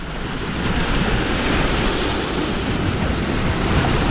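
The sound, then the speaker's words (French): Surf and wind at the seaside in Portici on the Gulf of Naples make a steady, broad wash of noise with no voices. “On est effectivement au bord de la mer, hein, évidemment. On est à Portici, pour être plus précis. C'est une petite localité du golfe de Naples,”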